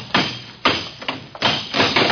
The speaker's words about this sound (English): Smash that lock.